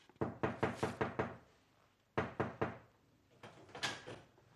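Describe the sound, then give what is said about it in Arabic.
Knocking on a house door: rapid, firm knocks in a long burst, then a shorter burst after a pause, and a looser final run of knocks. No voices. “في يوم لقيت الباب بيخبط.”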